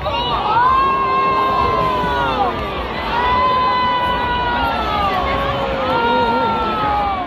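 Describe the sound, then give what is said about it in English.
A crowd at a dance event reacts badly to an announcement. Loud, sustained shouting and whooping voices overlap continuously for several seconds, with only slight dips in the roar. “So he introduced the opposing dance team as the new face of Ozempic, and people in the crowd did not respond well to that.”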